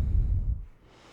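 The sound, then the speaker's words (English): One deep breath is drawn in during a guided relaxation exercise. The airy, low intake lasts about half a second, then fades into quiet. “And then take a deep breath in”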